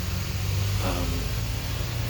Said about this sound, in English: school bus number one leaves for the morning, and school bus number two comes in. So y'all might hear that.